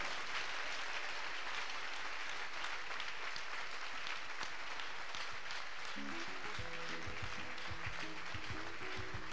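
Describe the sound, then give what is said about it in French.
An audience claps at a church youth service, a dense, steady patter of many hands that continues unbroken throughout, fairly faint. “Clap to the Lord. Applaudis pour le Seigneur.”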